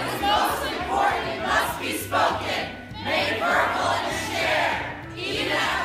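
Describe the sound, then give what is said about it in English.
Students at Middlebury College chant in unison as controversial author Charles Murray takes the stage, a loud group of voices repeating rhythmic phrases in swelling waves over a steady crowd murmur. “That's the sound of students chanting when controversial author Charles Murray walked on stage at the college on March 2nd.”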